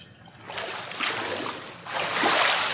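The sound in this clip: Water splashes and sloshes as a person is immersed during a baptism, a continuous rushing wash of noise that swells louder toward the end.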